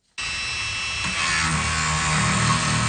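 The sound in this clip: A cutting tool bites into 30,000-year-old fossil bone from a long-extinct cat in Yukon. It starts abruptly and settles into a continuous high, grinding whine that grows a little louder and rougher partway through.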